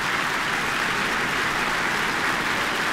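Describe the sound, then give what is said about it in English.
Sustained applause from an orchestra and concert audience for a soloist after a performance, a dense, even wash of clapping with no breaks. “Back by popular demand, the orchestra applauding him now too.”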